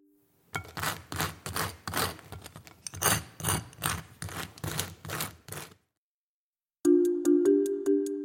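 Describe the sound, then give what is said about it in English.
A knife spreading something on toast makes many dry, rhythmic scraping strokes at a steady pace. After a short pause, a brief tonal sound follows. “It sounds like somebody scraping toast. Yeah, that's exactly right. It's someone spreading something on toast.”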